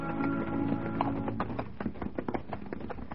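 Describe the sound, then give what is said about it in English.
Hoofbeats of several horses as seven mounted redcoats ride abreast with their sergeant in the lead; a dense, steady clatter of many overlapping hoof strikes, with sharper individual clops standing out toward the end. “Six redcoats riding abreast, and the sergeant in the lead.”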